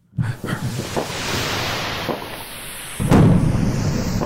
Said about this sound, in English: A drone angle just chilling over the top. That's cool. An aerial fireworks show. That's really loud.